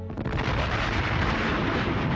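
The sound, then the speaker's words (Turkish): A continuous roaring explosion sound effect evoking the Big Bang, loud and dense, with a deep rumble and broad noise held steadily throughout and no voices. “Big Bang teorisi, evrenin dev bir patlamayla ortaya çıktığını kanıtlar.”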